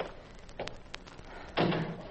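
A door being shut: faint clicks and knocks lead to one solid, fairly loud thud near the end, with a brief fading rattle after it.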